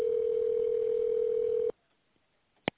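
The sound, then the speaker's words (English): Telephone tones: a steady, single-pitched tone holds for over a second and a half, cuts off abruptly into near silence, and is followed by one short, sharp beep. “Dialing.”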